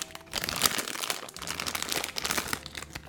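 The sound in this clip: A crinkly snack bag being torn open, with continuous rustling and crackling plastic across the whole stretch and several sharper crinkle bursts. Fairly loud and alone, with no voices.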